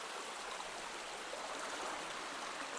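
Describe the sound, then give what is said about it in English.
A stream's water flows steadily down into a deep turquoise pool at its base, making a soft, even rushing hiss that continues unbroken, with no talk. “the water's slowly going along and it's descending down into a turquoise pool at the base”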